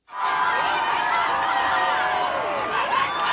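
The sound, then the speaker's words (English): A large crowd lines the streets of Madrid to welcome Pope Leo, a dense, steady roar of many cheering and shouting voices that holds at a constant loud level throughout. “thousands of people line the streets of Madrid to welcome Pope Leo.”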